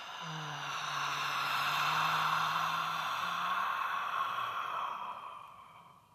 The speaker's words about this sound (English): Inhale. Just pausing at the top of our breath and then audible exhale.